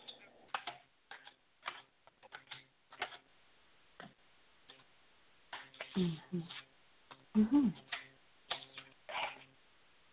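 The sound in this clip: Tarot cards being shuffled and drawn for a six-card relationship reading: soft papery flicks, slides and taps come in irregular bursts, with denser, louder handling in the second half.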